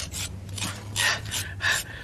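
Red beetroot scraped on a hand grater makes several short, rough rasping strokes in an uneven rhythm, each a bright scratchy burst, over a faint low hum.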